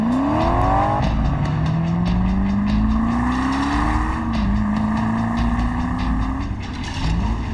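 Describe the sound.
A car engine drives hard, its pitch climbing steadily and dropping back at a few gear changes before rising again, loud and continuous throughout.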